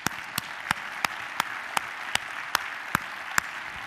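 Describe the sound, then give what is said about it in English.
A church audience applauds to welcome returning guests, including people home from military service and family gathered for Thanksgiving. Soft, steady clapping runs under a series of sharp, louder claps that land in an even beat, roughly ten in a row. “Can you help me welcome all of these friends back home?”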